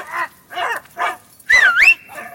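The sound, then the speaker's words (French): Dogs barking near a château: three short, even barks followed by a louder drawn-out whining yelp that wavers in pitch and then trails off. “Les chiens, là !”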